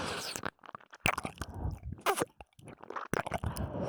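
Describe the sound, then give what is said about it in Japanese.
Eager chewing and biting into food, with many irregular wet crunches, smacks and munching bursts broken by short pauses, fairly faint and with no talk. “むしゃぶりついてる。おいしい、おいしいって”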